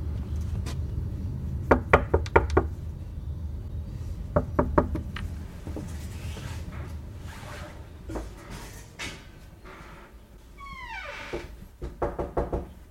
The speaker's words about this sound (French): Merci de frapper fort et attendre que l'on vous ouvre.